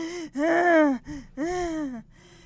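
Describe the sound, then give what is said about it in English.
A voice imitates the heavy, gasping breaths of runners who have just collapsed on the track after a quarter-mile race: two long, strained, voiced pants with shorter breaths around them, loud and alone. “And they're all, like, breathing really hard.”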